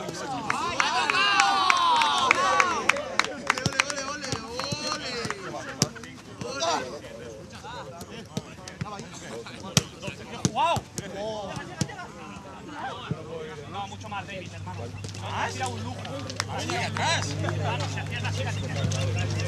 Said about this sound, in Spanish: suena así el entrenamiento de la selección cuando se ponen a hacer un rondo y la pelota coge velocidad.